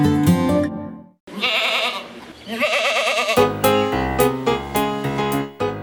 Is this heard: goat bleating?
yes